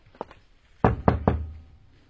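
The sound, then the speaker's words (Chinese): Knuckles rap on a door during a police operation to catch a suspect: two faint light taps, then three louder, firmer knocks in an even rhythm, each with a short, ringing decay. “你敲门。”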